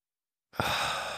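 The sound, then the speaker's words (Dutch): A single calm breath during a seated meditation: a soft, airy exhale starts abruptly after half a second of silence and trails on. It is heard alone, with no talk. “En dan adem ik zo rustig in en uit.”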